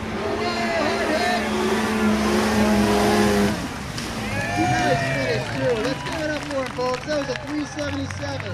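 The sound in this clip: A snowmobile roaring as it skims across open water on a pond, its loud engine whine holding steady and then wavering in pitch, with people talking over it.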